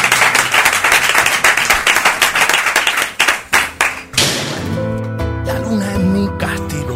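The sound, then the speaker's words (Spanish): Applause from a group as someone is sent off through a door: dense, steady clapping for about three seconds that thins into a few scattered claps, then music comes in. “te vamos a hacer un aplauso de todo mientras que estás saliendo por la puerta”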